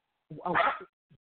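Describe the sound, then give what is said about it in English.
A dog barking while its owner is on the phone: one loud, sharp bark, followed a moment later by a brief, faint yip. “this dog likes to bark on him on the phone.”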